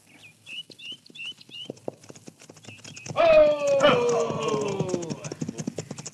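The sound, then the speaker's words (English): Rhythmic clip-clop of horses' hooves as riders approach along a desert trail, interrupted midway by a loud horse whinny that falls in pitch. The hoofbeats continue steadily afterward. “Hey, look, Bat. Riders are coming.”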